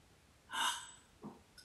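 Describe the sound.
Deep breathing during a guided meditation: one strong, airy breath swells and fades, followed by a couple of softer, shorter breaths. There is no talk.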